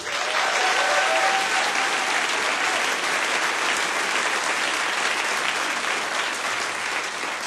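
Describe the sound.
Sustained, loud applause from an audience welcoming a singer-songwriter from Nashville at a live music show; dense, even clapping holds steady for the whole stretch, with no voices over it.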